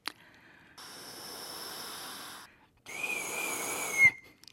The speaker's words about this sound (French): Et puis, on va souffler à peu près à l'horizontale dans le restant de la paille vers le mur que j'ai protégé.